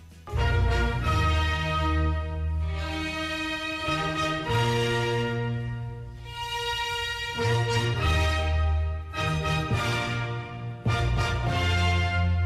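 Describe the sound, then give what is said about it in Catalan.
Orchestral music from the final movement of Beethoven's Ninth Symphony plays loud and continuous, with full sustained chords over a strong bass and short breaks between phrases. “Inclourà peces tan apreciades pel públic com, per exemple, l'últim moviment de la novena sinfonia de Beethoven, que sona així.”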